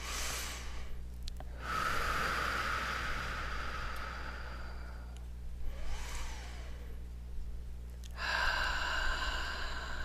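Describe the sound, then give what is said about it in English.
Slow, deliberate breathing during a guided breathing exercise: long, airy inhales and exhales rise and fade in a few unhurried cycles, each breath a soft, broad rush of air with short pauses between, and no talking. “So let's take some nice conscious breaths.”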